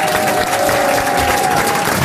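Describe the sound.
A studio audience applauds a man returning to the set, giving a steady, fairly loud round of clapping that continues without a break across the two seconds.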